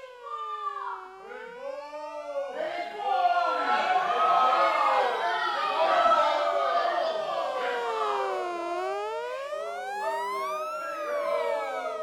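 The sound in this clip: A wailing siren sounds near a city station. Loud, overlapping tones sweep up and down in long glides over a dense, busy background for about twelve seconds.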